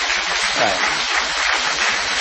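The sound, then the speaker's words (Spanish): An audience claps in the Multiteatro on Corrientes street, a dense, loud and steady wash of applause that holds evenly throughout. “Y las personas que golpean sus manos la una contra la otra son el público.”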